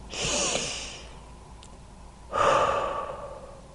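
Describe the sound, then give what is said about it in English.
A person takes a deep breath, with two long, airy breathing sounds separated by a short pause. The second breath starts more abruptly and louder, with no speech over it. “Take a breather in.”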